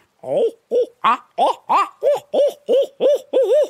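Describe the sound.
A series of rhythmic owl hoots is blown on a hand-held owl hooter call used in turkey hunting, about ten evenly spaced, wavering hoo notes that rise in a rolling cadence and get a little louder toward the end.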